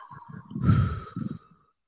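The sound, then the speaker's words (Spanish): A deep inhale and exhale during a guided group breathing exercise. The soft, breathy rush swells and then fades over about a second, with a faint steady tone underneath. “Jalen aire, sáquenlo. Inhalen. Sáquenlo.”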